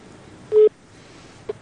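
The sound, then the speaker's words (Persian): A telephone tone signals an incoming call on a radio phone-in. One clear sustained beep is followed by a short, faint blip, with no talk. “تماس داریم، میشنویم کی است و از کجاست.”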